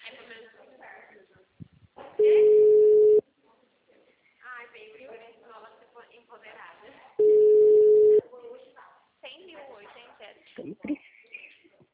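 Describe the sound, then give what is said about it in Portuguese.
Telephone busy tone after a dropped call: two loud, steady, mid-pitched tones about a second long each, spaced several seconds apart, with people talking before, between and after them. “caiu a ligação”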